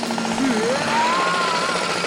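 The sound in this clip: Power-tool drilling from a neighbours' renovation crew before dawn: a loud, continuous grinding roar with a whining tone that rises in pitch partway through.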